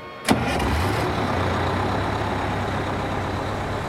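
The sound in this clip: A bus engine runs while the vehicle drives along, a steady low droning rumble that holds evenly after a brief sharp knock at the start.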